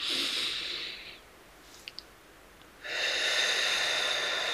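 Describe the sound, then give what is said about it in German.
A deep breath drawn in: a steady, airy rush of breath that lasts about two seconds and runs to the end. Before it comes a shorter breath sound, then a quiet pause with two small clicks. “Und dann atme ich hier mal tief ein.”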